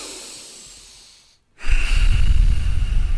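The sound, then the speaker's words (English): Breathing in and out through the nose: a soft, airy hiss that fades into a brief silent pause, then a louder, rougher rush of air that holds steady to the end, with no talking. “So if you take a breath in through your nose and out through your nose right now”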